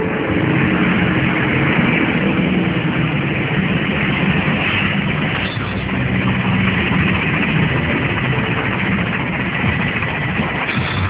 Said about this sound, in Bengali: বাইরে মিলিটারিদের গাড়ি।